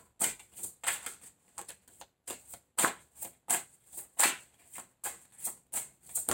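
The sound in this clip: Tarot cards being shuffled and drawn make many crisp, papery riffling bursts in an uneven rhythm, split by brief pauses, with no voices.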